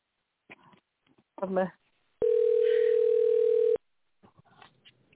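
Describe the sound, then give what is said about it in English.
Outgoing telephone call waiting for pickup: a single steady electronic tone lasting about a second and a half, with people talking before and after it. “let me see if Ruben picks up”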